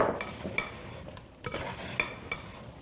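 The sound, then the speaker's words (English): Cut vegetables being stirred together with oil, salt and seasonings, a faint soft rustling broken by several light clinks of a utensil. “now that we have the vegetables all and the seasonings and the oil all mixed together”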